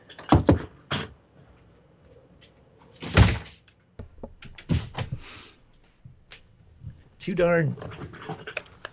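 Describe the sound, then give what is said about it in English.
A window in a noisy New York City home being closed gives a few scraping slides and dull knocks spread out between quieter gaps, with a brief voice near the end. “Let me close the window, okay? 1 second.”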